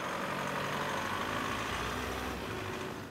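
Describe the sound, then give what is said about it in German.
Engine roar from a large articulated farm machine of nearly 300 horsepower working a silage harvest: a loud, steady, low rumble throughout, easing slightly at the very end. “Große Maschinen bei der Arbeit. Ein großes Geschütz, knapp 300 PS.”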